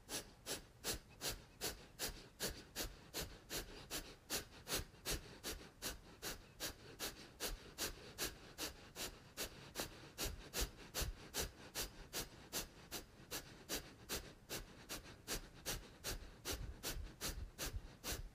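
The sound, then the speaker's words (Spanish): Kapalabhati yoga breathing: many forceful exhalations pushed through the nose. The short, sharp puffs repeat in a fast, very steady rhythm throughout, with no talk. “Inhalamos. Kapalabhati, exhala.”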